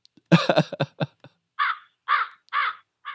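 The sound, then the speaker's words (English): Crows cawing: a rapid burst of harsh, raspy caws, then three longer, evenly spaced caws with short silences between them. “I don't even know what that sound is. It's crows.”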